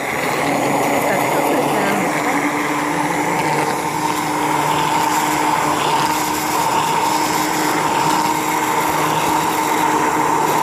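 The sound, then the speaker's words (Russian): An electric mixer whips mayonnaise while oil is poured in, its motor holding a loud, steady, high whirring drone with no break throughout. “А, вот скорость маленькая, начинаем перемешивать. Вот она перемешалась чуть-чуть, я могу немножко скорость увеличивать, да? Вот я увеличила скорость. И начинаю потихонечку подливать масло туда.”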